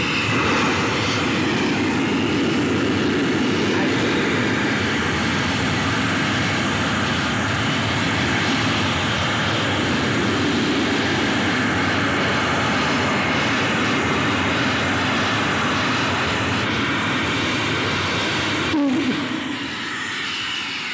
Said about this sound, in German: Fantastisch, ein scharfer blauer Flammenstrahl stand da jetzt hier 30 Sekunden lang über dem Gelände. Ja. Ein Donnern war das.